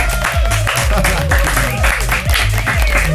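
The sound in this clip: A studio audience applauds and cheers at the invitation to make some noise, a dense, steady wash of clapping with voices mixed in that lasts the whole clip.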